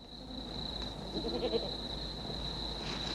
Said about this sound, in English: back in the hills watching over the small group of goats